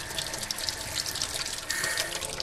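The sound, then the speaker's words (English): Water running from a tap in a vacant house, a steady, bright rushing hiss that flows on without a break, with slight swells in loudness and no voices. “We have fully functional water.”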